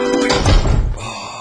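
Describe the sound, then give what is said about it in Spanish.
A door is closed, landing as a dull, heavy low thunk with a brief rattle after it. “¡Basta! ¡Cierra la puerta!”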